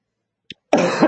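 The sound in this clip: A brief throat sound comes first, then a single rough, loud cough. Nothing else is heard.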